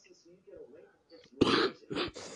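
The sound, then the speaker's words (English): A couple of harsh, throaty coughs come right after a few soft words of speech, the first cough burst loud and rough, the second shorter. “So you gotta remember that sound of that cough”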